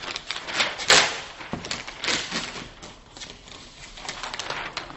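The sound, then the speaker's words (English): Paper tearing as a diagram sheet is ripped off a pad: a sharp, crackly burst of ripping followed by a few more rustling, tearing bursts, fairly loud and with no talk over it. “Now, I've done a diagram, which is going to be hard to see on here, so I'm going to rip it off and wander about”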